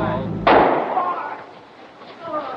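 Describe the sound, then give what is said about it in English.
A single sharp, loud gunshot crack during a live news broadcast of a shooting in the basement of Dallas Police Headquarters, November 1963, with voices around it and a noisy tail after the burst. “He's been shot. He's been shot. Lee Oswald has been shot. There's the man with a gun.”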